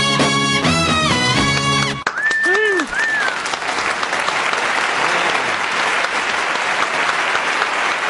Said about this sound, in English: Give it up, if you would, for Bruce Limprist and the All Boy Orchestra.